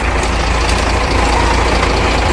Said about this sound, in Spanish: está ahora justo aquí la Guardia Civil parando a vehículos, se acaba de parar a un camión